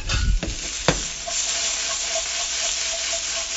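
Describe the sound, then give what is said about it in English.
Garlic frying in a pan over high heat gives a loud, steady sizzle, with a few sharp stirring knocks early on before the hiss settles into an even crackle. “And there's a slight change in pitch. So I want a high heat. I want to maintain that high heat. Because that's garlic.”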